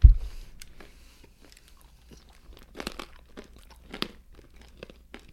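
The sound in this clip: A crunchy snack of nuts and cranberries is chewed. A dull thump at the start is followed by a run of crisp, brittle crunches, fairly faint, with no talk.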